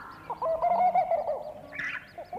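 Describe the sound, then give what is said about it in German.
A bird calls again and again in a run of warbling, mid-pitched notes, with a brighter, higher burst near the end. “Jetzt gerade, da ich dies schreibe, fängt dieser Vogel wieder an, der mich zum Wahnsinn treibt. Er ruft. Stundenlang,”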